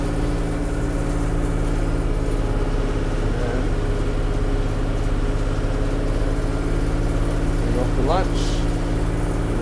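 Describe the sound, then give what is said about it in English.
Steady engine drone from a vehicle driving around a baseball diamond to flatten footprints: a constant, mid-pitched hum that holds level for the whole stretch. “we're gonna drive around, flatten these footprints, hopefully make the diamond look nice.”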